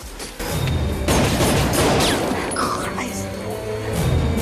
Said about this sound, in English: A red dot appears on Stengel's chest and he drops to the ground. Regis and Chance return fire.